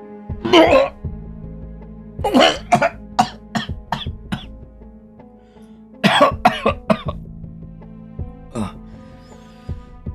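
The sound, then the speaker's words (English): Retching and vomiting into a garbage can, heard as harsh gagging bursts grouped into several clusters of rapid heaves separated by short pauses, with a last single retch near the end. “Excuse me, is there a garbage can? I might vomit. Thank you.”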